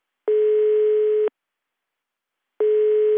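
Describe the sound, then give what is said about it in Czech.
A telephone sounds as a call is placed: two steady, mid-pitched tones, each about a second long, separated by silence. The second tone is cut off at the end. “Hned mu volám.”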